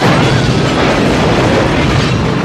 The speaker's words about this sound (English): The limo engine explodes in a pillar of flame.